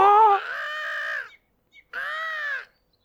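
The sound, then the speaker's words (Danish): A seagull high in the air gives two drawn-out, harsh calls, the first longer than the second, separated by a short silence. “så får han øje på en måge højt oppe i luften”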